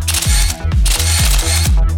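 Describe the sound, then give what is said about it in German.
Camera shutter sound effect standing in for a speed camera flash: four loud, rhythmic mechanical clicks about half a second apart, each carrying a low downward thud, over a continuous whirring mechanism. “Und es wird geblitzt.”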